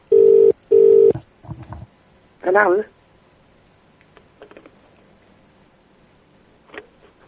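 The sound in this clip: A telephone call rings on the line with two short, steady ring pulses in quick succession, followed by brief bits of voice and a few scattered small noises.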